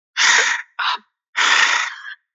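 Out-of-breath gasping voiced by a person imitating being winded: three loud, breathy gasps, a short one between two longer ones, alone against silence.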